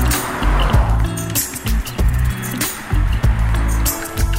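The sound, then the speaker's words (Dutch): Road noise from a car driving over rougher asphalt just after crossing into Germany: a loud, continuous low rumble broken by repeated thumps and shifts in texture as the tyres meet the uneven surface. “Misschien merkte de luisteraar al aan het omgevingsgeluid, want het asfalt wordt iets minder. Maar we rijden net Duitsland in, Kevin.”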